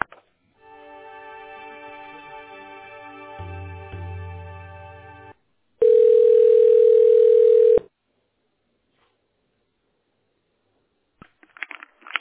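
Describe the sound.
Telephone line tones while a call is transferred to another extension: a buzzy, harmonic-rich tone lasting about five seconds, a short pause, then a louder, pure steady beep for about two seconds, followed by silence and faint crackles.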